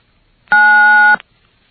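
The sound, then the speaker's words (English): A single telephone keypad tone for the digit 9, dialed to accept a collect call: a steady electronic two-tone beep lasting just over half a second, heard alone against silence. “To accept the call, please dial 9 now.”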